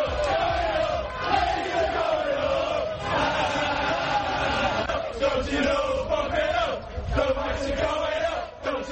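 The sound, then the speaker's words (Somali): Leeds United football supporters cheer and celebrate at their home stadium, a loud, sustained crowd roar with a droning, sung chant running through it that holds steady throughout. “Waxaan ka yeeshay sacabka aad maqleysaan waa taageerasha kooxda kubadda cagta Leeds United oo ku dabaaldegaya garoonka ay kooxdoodu ku ciyaarto ee Allen Road banaankiisa.”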